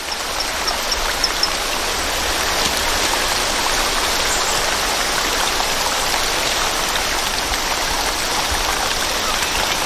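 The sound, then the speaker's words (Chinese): Loud rushing stream water, a noisy torrent where small frogs live. It makes a dense, unbroken hiss and roar that holds steady for about ten seconds. “变化叫声的效果还算不错，水流的声音还是太大了，需要更强效的措施。”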